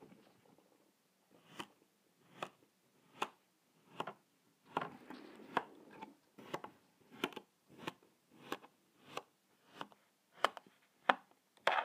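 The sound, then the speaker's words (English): A knife slices through sand in many soft, gritty strokes at a steady, even pace, each one a short crunchy swish. The strokes are alone, with no talk. “going to do the ASMR with the sand. Let's go. It's time for beige knife.”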